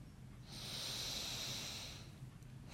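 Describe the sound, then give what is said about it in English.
A single slow, deep breath taken during a guided breathing exercise: a soft, airy rush of breath that swells and fades over about a second and a half, with no talk. “just invite you just to take 3 breaths.”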